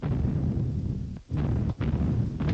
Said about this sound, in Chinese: 连长，敌人炮击武胜山，部队也朝那个方向运动了。